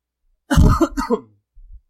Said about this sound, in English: I haven't coughed all weekend until I got up here.